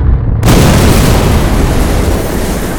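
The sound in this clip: A huge explosion: after a brief quiet moment a sudden, very loud boom bursts out and turns into a dense, sustained rumbling roar that eases off only slightly to the end.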